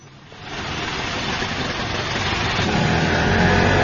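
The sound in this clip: An auto rickshaw engine kicks in shortly after the start, then drones steadily as the vehicle drives, growing gradually a little louder with no voices over it.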